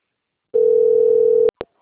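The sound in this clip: A steady telephone dial tone sounds while a call is being placed. It holds level for about a second, then cuts off, followed by two short clicks.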